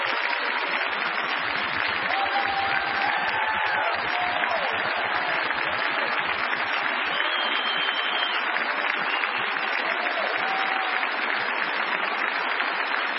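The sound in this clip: An audience applauds to welcome a returning pastor who is about to speak, with dense, steady clapping that continues without a break from start to finish.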